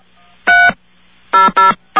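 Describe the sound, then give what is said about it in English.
Telephone keypad tones sound as a number is dialed into an automated phone system, four clear electronic beeps, the first alone and the others in quicker succession, the last cut off at the end. “Just to be a wise guy, I'm going to enter their phone number as the 7-digit number.”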